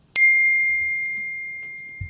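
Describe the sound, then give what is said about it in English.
A single bright phone notification ding rings out alone, striking sharply and then leaving a clear, high tone that fades slowly over the next two seconds. “A notification popped up on the top of the screen”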